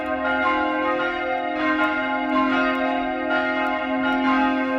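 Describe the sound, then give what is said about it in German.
Church bells in Utting rung by hand with a rope for the midday ringing, a continuous overlapping peal of rich, sustained tones with regular rhythmic strikes, steady and fairly loud, with no talk. “Per Seilzug werden sie, wie in alten Zeiten, weiterhin noch von Hand geläutet. Das Mittagsläuten aus Utting von Michael Mannhardt.”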